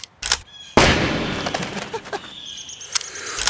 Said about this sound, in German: Das ist doch die Knarre, mit der sich dein Vater die Rübe weggepustet hat. Scheiße! Spinnst du jetzt? Hey, bleib doch locker. Ich tu doch niemandem weh. Ich schieß doch nur ein bisschen rum.